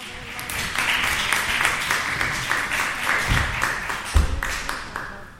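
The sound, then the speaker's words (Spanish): Audience applause at a radio workshop event, many quick claps blending into a steady patter for about five seconds, with a few louder thumps near the end. “Un aplauso para Manuel.”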